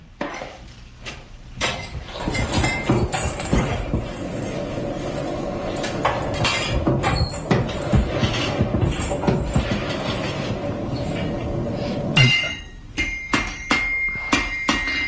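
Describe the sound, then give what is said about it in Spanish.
Power hammer tempering a sickle, pounding fast metallic blows with clanging ringing over a steady mechanical din. After a brief lull near the end, a few separate, heavier strikes follow. “Eso es un mazo eléctrico sonando mientras templa un fauciño, una hoz.”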